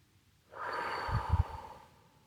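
A person breathing in deeply during a guided breathing meditation: one long, airy inhale lasting about a second and a half, starting abruptly and swelling slightly with a few low breathy pulses before tapering off, with nothing else heard.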